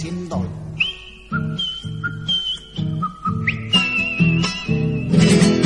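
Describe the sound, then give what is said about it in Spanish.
Melodic whistling, a clear tune of sustained and gliding notes at shifting pitches, carried over a steady rhythmic low accompaniment that grows fuller toward the end. “se ganó el corazón de la Próspero Molina con el silbidito.”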